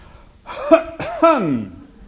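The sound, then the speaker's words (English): A deliberate, voiced cough from a preacher reading scripture in a sermon: a few short, throaty bursts with a strong pitched tone, the last one drawn out and falling. “That was a rhetorical cough.”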